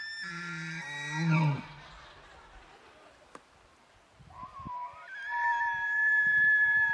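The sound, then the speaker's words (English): Elk bugling at night outside a cabin: eerie, high whistling calls, an early one sliding downward and a later one rising into a long sustained whistle, faint against a quiet background. “Those are elk. And nobody told me that elk sound like demons in the middle of the night.”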